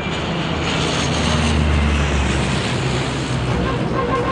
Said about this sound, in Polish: samolot o skrzydłach rozłożystych jak szybowiec przetoczył się przez betonowy pas amerykańskiej bazy lotniczej w Peszawarze w Pakistanie i o 5:36 wzbił się w powietrze.